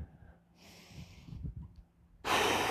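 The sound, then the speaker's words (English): A slow, deep breath taken during a calm guided exercise, made of soft airy breathing sounds that end in a louder rushing burst of breath, all faint and without talk. “Take a deep breath”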